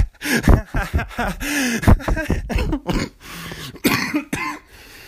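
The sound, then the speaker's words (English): A person coughs with a nagging cough that keeps flaring up when they laugh: several harsh, abrupt bursts mixed with voiced, broken vocal sounds, loud and uneven. “I gotta get rid of this freaking cough”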